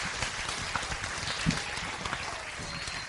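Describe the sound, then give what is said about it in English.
Applause from an audience greeting a guest speaker at a barn church: a dense, even crackle of many hands clapping at moderate loudness, with no talk over it. “I want you guys to welcome him, so let's give him a hand.”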